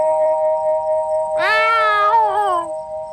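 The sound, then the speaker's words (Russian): A single drawn-out meow from an Angora cat, rising into a long, wavering cry that tapers off, heard alone over a steady tonal hum. “Прямо перед машиной на задних лапах стоял кот ангорский, выставив вперед тощий живот.”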